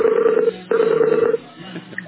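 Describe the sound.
Skype call dialing tones: two steady, mid-pitched beeps, the first about half a second and the second a little longer, separated by a short gap, then fading into quieter, low-level sound.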